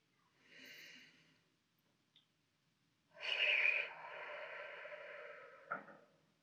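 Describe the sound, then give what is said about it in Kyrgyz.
Deep breathing in a guided meditation: a soft, short airy intake through the nose, a quiet pause, then a longer, louder breathy exhale through the mouth, heard on its own. “мурдуңуз менен дем алыңыз оозуңуз менен дем чыгарыңыз демиңизди аягына чейин чыгарыңыз үч жолу дем алабыз”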